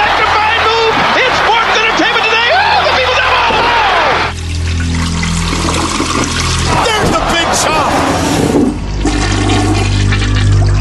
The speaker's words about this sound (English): Flushing. It's very flushy now. Hey. Every week, those toilets just... They're still going.